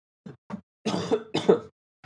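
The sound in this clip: Coughing and throat clearing with no talk: two short, sharp coughs, then two longer, rougher bursts of clearing the throat.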